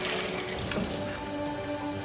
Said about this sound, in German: Wenn du das Messer ein bisschen nass machst, dann rutscht es besser.